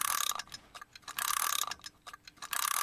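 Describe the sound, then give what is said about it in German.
Metallic clicks and rattles of a clock mechanism being assembled by hand, a bright, irregular clatter of many small ticks and scrapes broken by short gaps. “Ich merke schon, eine Uhr zusammenzubauen ist gar nicht so einfach.”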